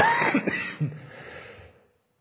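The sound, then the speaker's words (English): Coughing from someone battling a lingering cough: a few rough, harsh bursts close together at the start, then a fading rasp that trails off into silence. “Excuse me. Still battling that cough. But hopefully you understood what I said in the midst of my cough.”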